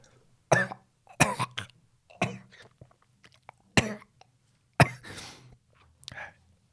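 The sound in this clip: A person coughs after water went down the wrong way, giving a series of sharp, rasping coughs in uneven bursts. Short quiet pauses and breathy gasps fall between the coughs.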